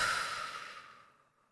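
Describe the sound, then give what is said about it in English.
Soft, breathy exhalation through the mouth after a deep breath, a single faint hiss that fades away gradually. “take some deep cleansing breaths in through your nose and exhale through your mouth”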